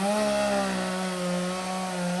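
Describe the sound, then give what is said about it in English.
A chainsaw cuts up the remains of a fallen magnolia tree, its engine holding a loud, steady, buzzing drone that wavers only slightly in pitch. No voices are heard. “used a chainsaw to cut up what was left of his parents' stately magnolia tree.”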